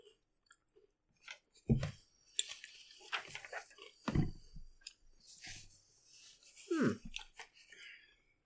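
Chewing on a salty Slim Jim meat stick: wet, crunchy bites and squishy jaw sounds come in irregular bursts, a few loud ones standing out over quieter mouth noises, with no talk.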